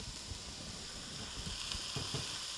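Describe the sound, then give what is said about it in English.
Garlic sizzling in olive oil in a pan while cooking sartù di riso, a soft, steady frying hiss with faint crackles running throughout. “I'm going to add just a tiny bit more olive oil. Just a dollop. And now we're adding the garlic.”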